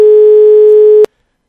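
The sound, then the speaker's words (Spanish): A telephone busy tone follows a failed phone call. It is a single loud, steady tone lasting about a second before it cuts off abruptly into silence. “Muy fallida la comunicación, es en términos generales. Primero el Skype, ahora el teléfono.”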